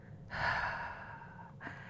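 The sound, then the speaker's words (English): A single open-mouth exhale, breathy and steady, swells and then gradually tapers off before the start of another breath near the end. “And then we're going to exhale with an open mouth, through an open mouth. And so it's going to sound something like this.”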